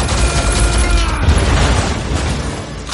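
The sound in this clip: Gunfire tears apart a thrown metal walkway during a superhero battle in an action film. It is a loud, dense, continuous roar of rapid shots that never separate into distinct bangs and hold steady for the whole stretch.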